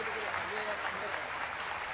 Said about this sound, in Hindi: शिव बाबा को जिसका हम इस सभा में तहे दिल से जोरदार तालियों से परम धाम तक तालियां चली जाए